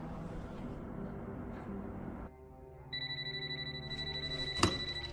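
A telephone rings with a steady, pulsing electronic tone that starts partway through over a continuous low background hum. A sharp click lands near the end.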